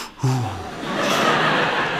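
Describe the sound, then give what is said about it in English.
A voice imitates a gasp, a sharp audible intake of breath that starts with a brief voiced catch and then becomes a long, steady rush of air. “audible intakes of breath.”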